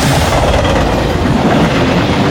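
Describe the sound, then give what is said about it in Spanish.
A train sound effect, used as a cue for changing wagons, gives a loud, continuous rumbling roar that holds steady and dense without breaks. “cambiamos de vagón. En Tren Deportivo, cambiamos de vagón.”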